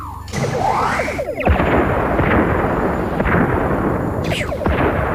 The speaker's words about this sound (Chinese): 向所有敌舰开火，每艘1枚光子雷就够了，别浪费弹药。